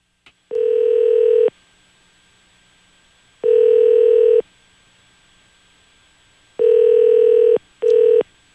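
Telephone keypad tones while a phone number is dialed: four long, steady electronic beeps with uneven gaps between them, each the same pitch, with faint clicks at the start and end.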